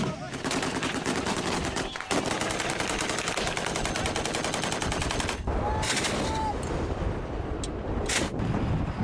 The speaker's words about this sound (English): Video footage released by Yemeni government forces backed by Saudi Arabia of them firing at Iran-aligned Houthi fighters in the country, verified by The Guardian.